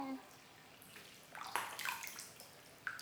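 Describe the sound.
Soft splashing of water as skin is wetted over and over before the heels are scrubbed: faint, with a few brief splashes bunched in the middle and one more near the end.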